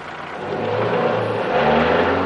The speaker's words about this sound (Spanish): El conductor arranca extrañado.